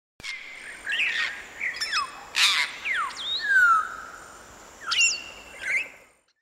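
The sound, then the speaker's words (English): An African grey parrot calls alone against a quiet background with a string of whistles and harsh squawks, some sweeping up or down in pitch, separated by short pauses. “African grey parrot.”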